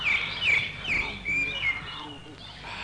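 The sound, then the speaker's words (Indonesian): Birds chirp as they fly off, giving a few short, high tweets that repeat at uneven intervals over a low, steady background murmur. “Terbang semua burung-burungku.”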